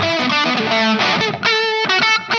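Heavily distorted electric guitar plays sustained, harmonically dense notes that shift in pitch every second or so, with a brief dip near the middle. The sound is loud and buzzing, with no voices.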